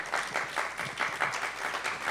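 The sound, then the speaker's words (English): An audience at a church service breaks into applause: lively, many-handed clapping that swells and dips in a loose rhythm but stays fairly loud throughout. “You can applaud.”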